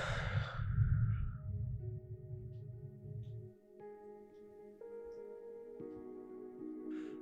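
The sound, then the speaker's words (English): Deep breathing during a guided meditation: a soft, airy breath and a long, low, quiet exhale that fades under sustained steady tones, which carry on after the breath ends. “So deeply inhale and exhale.”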